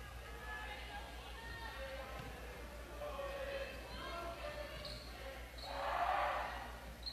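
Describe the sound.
A basketball is bounced by a female player at the free throw line before a free throw, giving faint, spaced thuds beneath a commentator's voice and crowd chatter.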